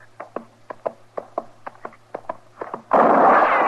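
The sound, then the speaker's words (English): Gunshots in a shootout near a fire: many sharp pops in quick, uneven succession over a low steady hum, ending in a sudden loud burst of dense noise. “Start shooting, Chester. He can't get both of us. I ain't shooting no more.”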